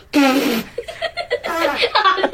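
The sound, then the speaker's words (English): A loud buzzy fart with a falling pitch, trailing into a series of shorter sputtering bursts. “Guess my fart. Guess my fart. Guess my fart.”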